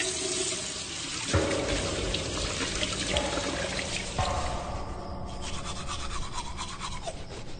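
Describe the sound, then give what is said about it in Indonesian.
A toothbrush scrubs at a bathroom sink while tap water runs and pours, giving a continuous wet swishing and trickling that shifts in texture a few times, with no voices. “Ketika aku sedang menggosok gigi di wastafel kamar mandi sambil berkaca”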